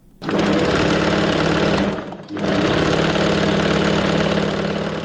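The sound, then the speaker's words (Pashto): A tailor's sewing machine runs in Kabul with a steady, loud mechanical whir. It stops briefly near the middle, then starts again at the same even pace. “د مشق الله د خیاطۍ د ماشین غږ دی.”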